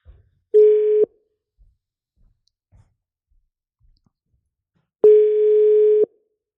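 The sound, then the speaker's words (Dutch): Ringback tone of an outgoing telephone call: two steady mid-pitched beeps about four seconds apart, the first short and the second about a second long, with a few faint clicks in the quiet gap and no voices. “leuk om even te bellen met Suzanne”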